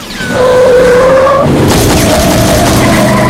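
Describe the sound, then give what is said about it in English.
Cars skid during a police chase with army trucks through an industrial complex: a loud, sustained tire squeal holds a steady tone, then breaks into a rough, roaring rush of noise that stays loud to the end. “The army trucks and police cars chase Barb through an industrial complex.”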